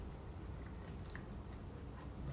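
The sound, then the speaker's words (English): Faint chewing of a trail mix of dried fig, mango and walnut: soft, steady mastication with low squishy crunches and no clear breaks. “I'm just gonna eat some. Oh, right. Mm, like the fig.”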